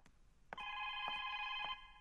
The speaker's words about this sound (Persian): باشین که برم تلفن رو جواب بتون ببینم کی است.